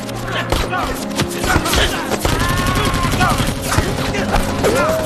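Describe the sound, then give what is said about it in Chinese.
Rapid machine-gun fire rattles in dense, loud bursts during a battle, and shouting voices rise over the shots. “给我上机枪！”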